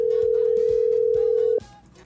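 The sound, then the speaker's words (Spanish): A telephone dial tone hums steadily at one pitch for about a second and a half, then cuts off abruptly and leaves only faint background noise. “Vamos a marcar por aquí. Vamos a ver un poquito los datos. Ahí estamos marcando.”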